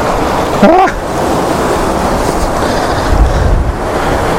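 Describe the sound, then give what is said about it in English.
Strong wind buffeting the microphone in a loud, steady rumble that roars throughout, with a brief vocal sound early on. “Oh, it's too windy.”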